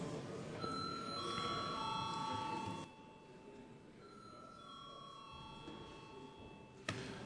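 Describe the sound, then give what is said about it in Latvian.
Ringing bell signal calling members to a vote in a parliament chamber, heard as steady sustained tones that hold for a few seconds, pause, then return more faintly over a low murmur of the room. “Lūdzu atbalstīt šo lēmumu projektu. Paldies, lūdzu zvanu.”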